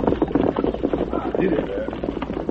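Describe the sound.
Horse hooves clip-clopping as a rider moves on ahead, a dense, busy patter of many quick beats blended with voices and other movement noise.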